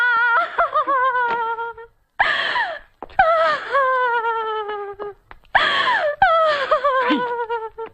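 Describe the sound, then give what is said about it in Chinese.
A woman cries and wails loudly during a heated domestic quarrel. Her voice comes in several long, sobbing moans that slide in pitch, broken by short gasping pauses. “你看你在这儿有哭有闹的，叫外人听见了多不好。”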